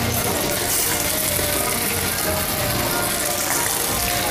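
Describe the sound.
Loud, steady sizzling of chicken pieces placed into a hot pan for the pan-frying step of a Cantonese fry-then-bake dish. It is a dense, continuous crackle with no pauses and no talk.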